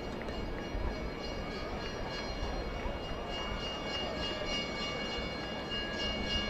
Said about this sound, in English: Yes, that is a train that you hear in the background passing by on the first base side of the ballpark.